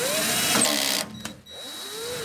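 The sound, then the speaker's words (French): A power screwdriver whirs while driving screws into aluminium fairings on an electric bike's battery case. Its steady motor whine stops for a moment, then starts up again. “Toute cette caisse doit être protégée par des, des carénages en aluminium et c'est ce que je suis en train de visser”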